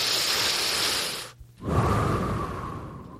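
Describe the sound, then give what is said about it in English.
A deep breath taken alone and loudly: a long, airy, rushing breath, a short silent pause, then a second long breathy rush that slowly fades. “Let me take a deep breath.”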